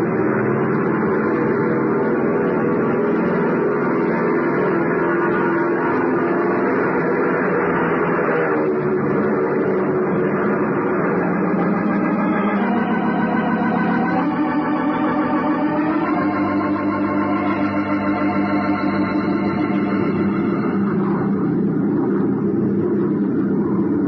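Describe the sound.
An airplane taking off from a runway: a loud, continuous engine roar throughout, its droning tone shifting several times partway through.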